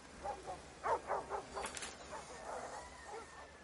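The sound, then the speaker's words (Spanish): Dogs bark at a dog-fighting pen lined with cages, a faint run of quick barks and yips clustered early, then tapering into quieter, scattered sounds. “rodea un recinto para luchas de perros con varias jaulas”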